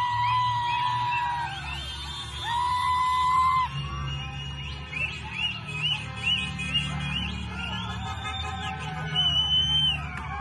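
Crowd yelling in the streets of Mahabad, with shrill, drawn-out cries and whoops rising repeatedly over a steady background of crowd noise.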